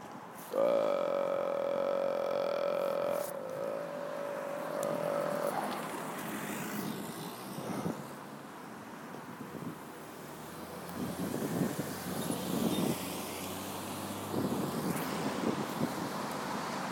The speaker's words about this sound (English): Okay, I'm on a street corner. It tends to make me a little distracted